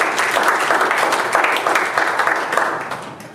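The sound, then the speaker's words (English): An audience applauding at a religious gathering, loud dense clapping that runs steadily throughout and eases slightly at the end. “Give him a hand of applause.”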